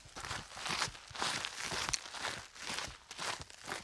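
Footsteps crunch across gravel in a soft, even walking rhythm. The crackling steps are faint and continuous, with no talking.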